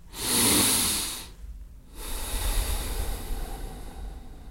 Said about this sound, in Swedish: Jag drar nämligen ett djupt andetag och det kommer jag dra med hela svenska folket.